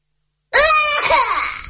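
A young child cries in one continuous, high, wavering wail that starts abruptly and stays loud throughout, with no other voices.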